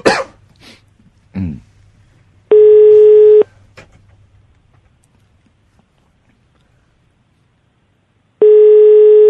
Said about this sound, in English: Have you dialed? Yes. Oh, okay. No, not yet. Now I'm dialing.